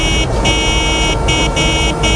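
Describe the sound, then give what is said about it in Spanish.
Road traffic of cars and school buses near schools in Málaga on the first morning of the school year, a steady, loud rumble with no voices. “es parte de la banda sonora del primer día de colegio para los alumnos de infantil, primaria y educación especial. Vuelven a las clases y vuelven los autocares escolares y los padres llevando los peques en coche”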